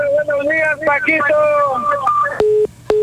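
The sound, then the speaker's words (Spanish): A phone call drops during a radio call-in: a brief voice on the line cuts out, followed by two steady, mid-pitched beeps of the disconnected line. “Se nos cayó. No, dijo buenos días, se nos cayó la llamada.”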